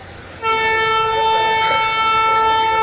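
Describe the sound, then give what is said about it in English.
A train on an active railway sounds a loud, sustained horn that starts about half a second in and holds a steady, rich harmonic tone over a low rumble until the end. “But there is a railway that's still active, that runs in this area.”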